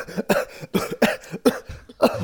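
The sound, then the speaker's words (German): A person coughs after smoking shisha. A fit of raspy, repeated coughs comes in quick uneven bursts, loud and alone, with short gasping gaps between them. “Ich muss kurz Shisha husten.”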